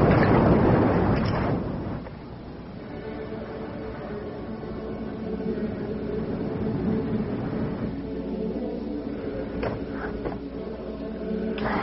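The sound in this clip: Boat moving away across water: a low, broad rumbling wash, loudest at the start, then settling into a steady churning drone with no voices.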